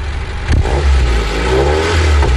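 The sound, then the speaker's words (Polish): A carbureted car engine revs, heard at the exhaust pipe. A throttle blip swells into a deep, loud, throaty exhaust rumble that holds steady to the end. “żeby słuchacze również usłyszeli, jak brzmi rasowy gang wydechu tego silnika. Kucnę nad tą rurą wydechową. Trochę gazu, o!”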